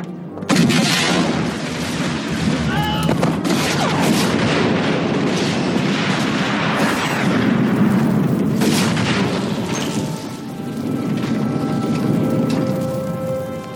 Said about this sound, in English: Episode 2, on the landing platform, Padme's ship blows up.